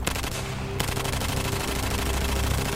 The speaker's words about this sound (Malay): Lanskoper Sulaiman terus menembak ke arah musuh menggunakan kaedah manual kerana sistem elektrik kenderaannya telah rosak.